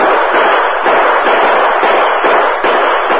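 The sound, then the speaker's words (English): Several men fire guns into the air to stage a short battle. Loud, sharp bangs overlap in a rapid, continuous volley with hardly a pause between shots, and no voices are heard. “as soon as we fire some shots into the air. Right. Use your guns, men. Make it sound like a short battle.”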